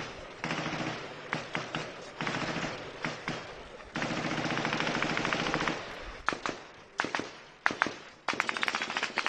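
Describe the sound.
Gunfire in the streets of Port-au-Prince, Haiti. Rapid automatic bursts and scattered single sharp cracks repeat across several seconds, with no clear talk.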